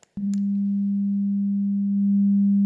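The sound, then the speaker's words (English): A pure sine wave tone at the same frequency as a triangle wave: one steady, low, unwavering pitch that starts with a faint click and holds loud and smooth for about two and a half seconds. “which is exactly the same frequency as the triangle wave. So the sine wave here is shown in light blue, and the original triangle wave is shown in yellow dashes.”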